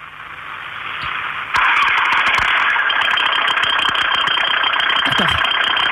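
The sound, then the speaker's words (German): A 2007 Focus engine starting, recorded on a phone, with an unwanted noise appearing right after startup. A quieter lead-in jumps abruptly to a steady running drone, overlaid with frequent sharp ticks and knocks. “Nee, der Motor startet und dann kommt auch gleich das Geräusch.”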